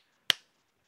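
A single sharp hand clap, given to switch on a clap-activated light. It is one short, loud crack that fades quickly into silence.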